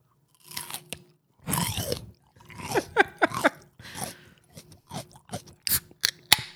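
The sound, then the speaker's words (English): Someone bites into and chews chicken wings, producing many loud, close, crisp crunches and chomps in uneven bursts, with moist mouth sounds between bites and no talking. “I like this little ASMR moment. Mm. Hold on, let me take another bite.”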